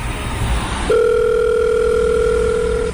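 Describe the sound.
A telephone dial tone at a highway rest area as a call to a mother is placed: after a moment of background noise, a steady, loud tone starts and holds unchanged for about two seconds.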